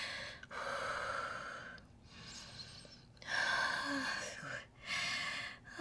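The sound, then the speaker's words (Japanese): Heavy panting breath after exertion, with several loud, rough breaths in a row separated by brief pauses, some harsher and gasping than others. “めちゃくちゃ行っちゃいました、まだ呼吸が荒い”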